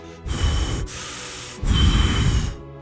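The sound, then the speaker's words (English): A voice imitates the heavy breathing of an old person on an unmuted phone call: a few rough, noisy breaths, two loud ones around a quieter middle stretch, with no words. “And you can hear basically just heavy breathing of an old person.”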